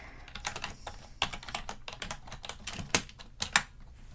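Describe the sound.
Fingers type notes on a computer keyboard at a hotel check-in desk: a quick, irregular run of soft clicks with a few sharper key strikes and no talking.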